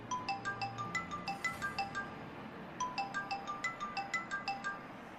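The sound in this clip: Telephone ringtone of an incoming call plays in two bursts separated by a short gap, each a quick, regular pattern of high, clean electronic tones, faint and without voices.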